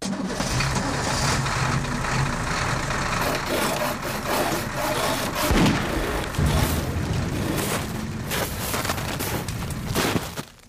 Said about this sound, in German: Der Lastwagen kletterte schwer keuchend auf den Pass des Jablonowi-Gebirges.